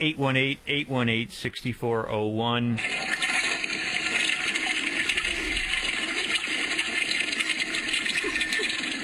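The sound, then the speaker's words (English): A toilet flushes with a loud rush of swirling water that carries on steadily for several seconds, right after a brief stretch of a woman talking. “She just flushed a tick.”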